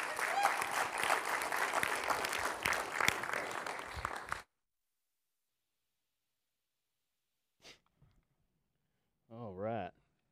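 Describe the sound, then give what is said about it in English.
An audience at a morning church service applauds to welcome a speaker. Dense clapping lasts about four seconds and stops abruptly, followed by near silence, a faint click and then a brief voice. “So give Jay a good welcome as he comes to share the word this morning.”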